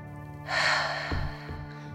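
A female harbor seal exhales before a dive: one breathy, rushing whoosh rises and fades over steady, sustained background music.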